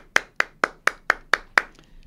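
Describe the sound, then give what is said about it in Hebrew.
Sharp hand claps honour someone: seven loud, crisp claps land at an even, steady beat, followed by a couple of much fainter trailing claps. “כפיים לעומר”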